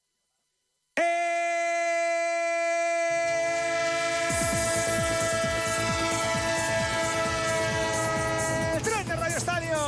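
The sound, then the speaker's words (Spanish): A train horn blares as a sustained, chord-like blast that starts abruptly and holds to the end, used as a radio sound effect. Rhythmic clatter of wheels on rails joins partway through and grows steadily busier beneath it. “El tren de Onda Cero, el tren que pasa a las 4 puntual, a las 3 en Canarias”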